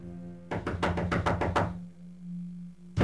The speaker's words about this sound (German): Ich klopfte an die Tür.